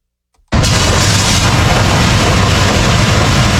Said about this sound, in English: That's the sound of DOT road crews in Cobb County clearing out storm drains ahead of the rains from Hurricane ASEAS.